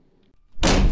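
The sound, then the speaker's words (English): A door slams: near-silence with faint rustling gives way to a sudden loud, heavy thud of the door banging shut, which booms on to the end without talk. “That's the sound of a door slamming in your face.”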